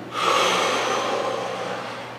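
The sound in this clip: A person breathes out during a simple breathing exercise: one long, steady, breathy rush that starts sharply and fades slowly over about two seconds, with no talk.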